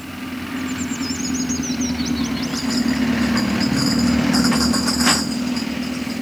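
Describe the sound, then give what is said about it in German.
A Coca-Cola delivery truck's engine rumbles low and steady as it approaches and takes a curve, the drone swelling gradually louder before holding level, with no voices. “Der Wagen von Coca-Cola. Gottlob nimmt er die Kurve immer sehr behutsam.”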